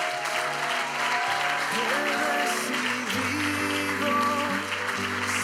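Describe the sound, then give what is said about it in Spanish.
A church audience gives loud applause to welcome a visiting pastor from Russia. A sustained wash of clapping blends with keyboard music playing beneath it. “Por favor, al pastor. Fuerte aplauso.”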